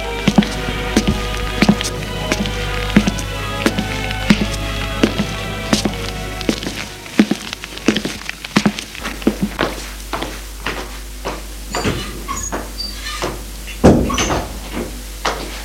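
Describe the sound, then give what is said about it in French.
Footsteps climb the stairs as a series of many steady thumps, and a heavier thud near the end is a bedroom door shutting. A music bed plays underneath through the first half. “arrivée à la maison, elle monte pour s'enfermer dans sa chambre.”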